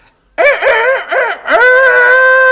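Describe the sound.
A human voice imitates a rooster crowing: a few short, loud, rising-and-falling calls, then a long, sustained final note held to the end.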